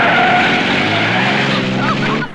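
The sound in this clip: A car's tires skid loudly as it turns around during a chase, a continuous broad screech mixed with engine roar that holds for about two seconds before dropping off at the end.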